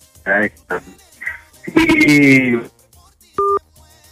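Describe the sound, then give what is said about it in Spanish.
A single short electronic telephone tone sounds near the end, after a phone call on a radio call-in is cut off. It follows a stretch of other voiced, yelping sounds and stands out as one brief, clean beep. “se nos cortó. ¿Qué pasó, don Juan?”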